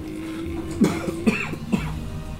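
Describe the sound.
Coughs during a tabletop game session: a few short, rough bursts spaced roughly half a second apart over a steady low hum, moderately loud and with no speech.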